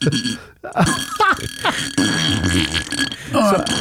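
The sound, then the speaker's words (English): Burps echo inside a beer can, with a hollow, ringing resonance around several gruff belches that follow one another closely and fairly loudly. “beer can echo burps.”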